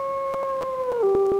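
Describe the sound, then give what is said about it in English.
A wolf howls at night, a single sustained, clear tonal cry that holds steady and then drops in pitch near the end. “And thus the howling of wolves and the cries of other animals looking for a night”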